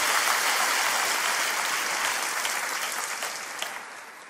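An audience applauds at a preacher's urging with loud, dense, continuous clapping that tapers slightly toward the end.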